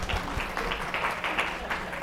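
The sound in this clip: Church audience applauding a staff tech worker, a steady patter of many hands clapping with soft, uneven bursts throughout.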